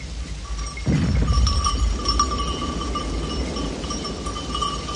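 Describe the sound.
Goats scattering across a meadow: a sudden burst of rustling, scuffling movement starts about a second in and carries on steadily, with faint high ringing tones above it.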